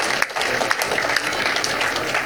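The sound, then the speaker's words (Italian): Audience applause at an event celebrating vintage sailing boats and the America's Cup: dense, steady clapping with scattered sharper claps, moderately loud throughout. “vi ispiro a fare un applauso perché sono veramente quello che a noi porta fierezza”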